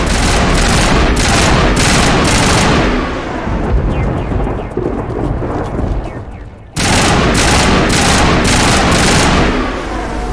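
Video game gunfire from a firefight against Geth: loud, rapid bursts of shooting, easing into a quieter, scattered stretch midway before heavy firing abruptly resumes.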